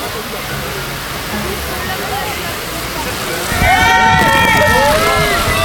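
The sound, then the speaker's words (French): Water poured onto a soapy slide track: a loud, steady rushing wash that grows a little louder about halfway through, with voices rising over it in the second half. “La piste est en train d'être mouillée.”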